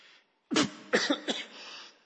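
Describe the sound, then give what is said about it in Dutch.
Harsh coughing from a person with a lingering, bothersome cough: a few sharp, raspy bursts in quick succession after a short pause, then a softer breathy tail. “Excuses, ik heb nog een hele vervelende hoest in Afrika opgelopen.”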